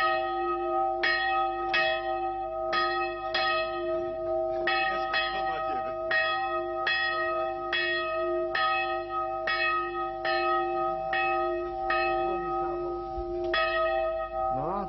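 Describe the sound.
Church bells ringing: many evenly spaced strikes in a steady rhythm, each with a bright metallic attack over a continuous sustained ringing tone.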